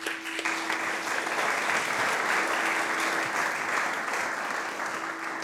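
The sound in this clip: An audience at a mindfulness meditation event applauds to welcome a speaker, with dense, sustained clapping that stays at a steady level from start to finish and no voices on top.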